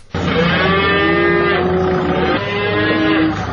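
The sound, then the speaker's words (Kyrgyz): A cow gives one long, loud, drawn-out moo at a livestock market in Sokuluk district, Chüy region, where cattle are sold. The call is harmonic-rich and continuous, with no voices or other sounds over it. “Сокулук районунун мал базары Чүй облусундагы ири базарлардын бири.”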